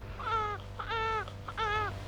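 A newborn baby cries in three separate wailing bursts, each a tonal, rising-then-falling cry with short gaps between them. The cries are fairly faint and sit over a low hum.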